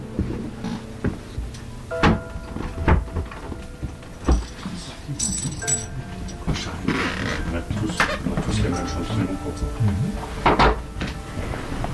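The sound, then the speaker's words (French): Four funeral home employees closing and lifting a coffin: busy mechanical clunks, ratcheting clicks and wooden knocks, with scattered sharper thumps over continuous handling noise. “Donc là, il y a les quatre employés des pompes funèbres générales qui se mettent autour du cercueil pour le fermer et pour le prendre.”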